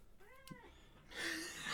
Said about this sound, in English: Yes, that's my cat. He completely agrees.